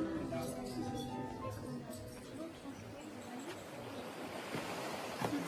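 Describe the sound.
Sea waves wash against the seawall at Balbec in a faint, continuous broad surf hiss that rises and falls gently throughout.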